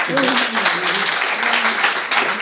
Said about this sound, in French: D'abord, on applaudit.